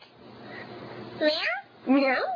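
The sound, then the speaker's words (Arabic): A young girl imitates a cat's meow with two drawn-out, high, wavering calls separated by a short pause, over a low background murmur. “يقول لها قطة تعمل مياه”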